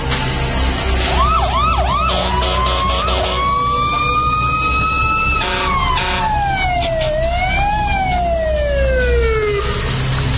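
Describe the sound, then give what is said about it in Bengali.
An ambulance siren sounds as it arrives at an emergency call for a bleeding head injury. It starts with quick rising-and-falling whoops, then shifts to long, loud wailing glides that carry through the whole clip. “অ্যাম্বুলেন্সে phone দেওয়া হয়েছে, নিচে এসে গেছে ওরা।”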